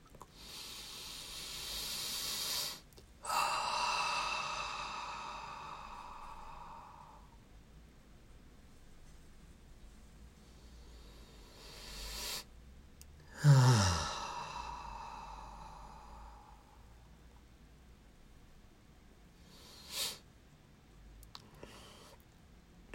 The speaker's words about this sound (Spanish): Y a tomar unas tres respiraciones estabilizadoras. Inhalando por la nariz y exhalando por la boca.